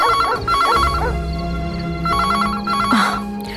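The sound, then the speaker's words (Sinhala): A home telephone rings after a number is dialed, sounding a few warbling ring bursts over a steady low background hum. “දහරගේ ගෙදර number එක dial කළා”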